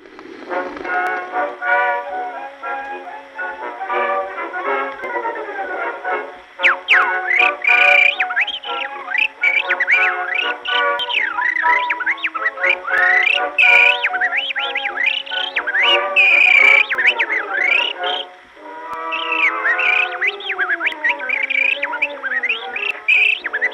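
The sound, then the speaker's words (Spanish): A man's voice imitates birdsong on an old historical recording, producing warbling trills, chirps and high whistled phrases in a continuous stream with a couple of short pauses. “quien cantaba como un auténtico pájaro. ¿No me crees? Pues escucha.”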